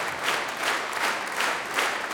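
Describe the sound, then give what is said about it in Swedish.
Audience applause after a concert performance, a steady dense wash of many hands clapping with gentle swells in intensity, continuous throughout with no voices. “Och ni hör på applåderna.”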